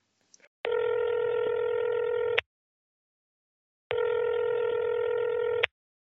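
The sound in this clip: A telephone call begins with a couple of brief dialing clicks, then two long, steady ringing tones separated by a pause of silence.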